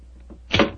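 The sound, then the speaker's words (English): A door being unlocked with a skeleton key: faint small scrapes, then a single short, louder metallic clunk. “Is the door locked? Yes, but I think the skeleton key will do the trick.”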